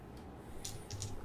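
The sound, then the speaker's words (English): Dice are rolled during a game, giving a few faint, sharp clicks and rattles close together over a quiet background. “Mute those dice being rolled.”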